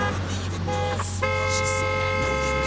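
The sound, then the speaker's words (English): A car horn honks in a library parking lot. A short blast is followed, after a brief gap, by a long, steady, loud tone that holds to the end over a low rumble. “You don't need the horn.”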